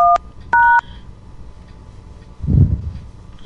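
Telephone keypad tones dial an extension on an automated company phone line: two crisp, loud electronic beeps, the first short and the second longer, with a low rumble shortly after.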